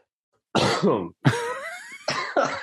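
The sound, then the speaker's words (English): Harsh, sputtering coughs from a man choking after inhaling his own spit come in a few loud bursts with brief gaps, mixed with throat clearing. “I just inhaled my spit.”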